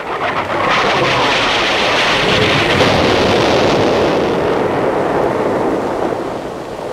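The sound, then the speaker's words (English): Artillery shelling explodes as a heavy, continuous roar of blasts and rumble. It stays loud and thick through almost the whole clip, easing slightly near the end. “Jim, we're being shelled! We're under attack!”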